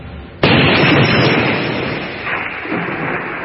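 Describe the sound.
A single loud gunshot cracks out abruptly and is followed by a long, dense rumbling tail that slowly fades.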